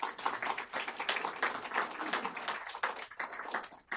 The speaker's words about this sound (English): Please help me in welcoming David Goldman.